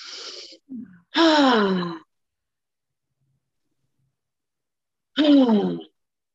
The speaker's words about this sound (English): Take a few deep breaths, about three or so big cleansing breaths